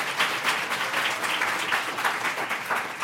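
Audience applause of dense, steady clapping that continues evenly at moderate loudness for the whole stretch.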